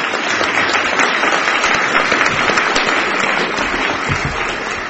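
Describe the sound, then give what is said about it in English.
Audience applauding the litigants after the last argued case of a court hearing, a loud, dense patter of many clapping hands that holds steady throughout. “That was our last argued case, and I think we should applaud our litigants here.”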